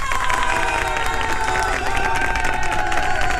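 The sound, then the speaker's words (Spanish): A crowd cheers and claps to celebrate a music artist's chart success, loud and continuous, with sustained tonal sounds carried through the dense clapping. “desde ya, un gran aplauso”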